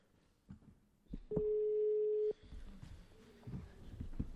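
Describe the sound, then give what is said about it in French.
An outgoing call's ringing tone: one steady, mid-pitched ring lasting about a second, set against faint murmuring and background noise. “Quatrième sonnerie”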